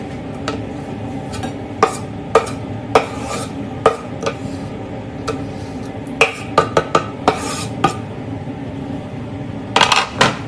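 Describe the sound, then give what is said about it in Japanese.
Utensils clink against a pan as onion goes in for a Thai yellow curry, a run of sharp metallic taps and scrapes scattered irregularly over a low steady background, with no voices. “まず玉ねぎね玉ねぎまあ半玉ぐらいちょっと入れますはいもう入れちゃおうどんどん”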